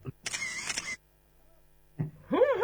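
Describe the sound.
A camera shutter fires for a group photo in a sharp mechanical burst lasting under a second, followed by near silence, a small click, and then a voice speaking.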